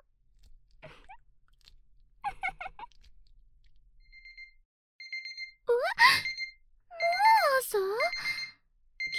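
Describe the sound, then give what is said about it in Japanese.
An alarm clock rings with loud, warbling electronic tones in a few bursts, following quieter, fainter chirps earlier on. “目覚まし時計が鳴ってる。”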